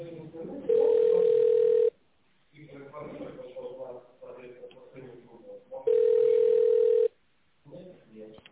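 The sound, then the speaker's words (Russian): A telephone line tone sounds while a call is transferred to a contact centre: two long, steady low beeps of about a second each, separated by several seconds of a voice talking. “Или оставайтесь на линии. Ваш вызов переводится на контакт-центр.”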